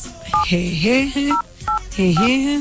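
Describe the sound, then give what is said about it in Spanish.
Telephone keypad tones as a password is entered: four short dual-tone beeps at uneven intervals, mixed with a voice. “Ingrese su contraseña seguida de la tecla de número 14.”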